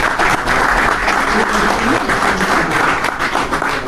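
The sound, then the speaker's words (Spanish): Steady, dense applause from an audience at a lecture, a loud continuous wash of clapping holding at an even level for about four seconds with no voices over it. “aplaudo también yo esta frase del doctor Bostecar.”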